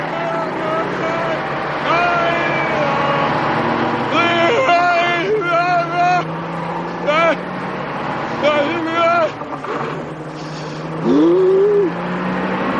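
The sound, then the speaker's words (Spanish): A snowcat's tracked engine rumbles low and steady outside a fog-bound hotel in a 1980 horror film, holding an even drone while a voice speaks over it in short bursts. “Se levanta. El coche oruga arranca.”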